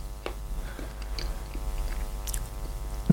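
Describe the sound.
Chewing and tasting a spoonful of liver casserole: soft, moist mouth sounds with a few small clicks and smacks throughout, fairly quiet and with no talking.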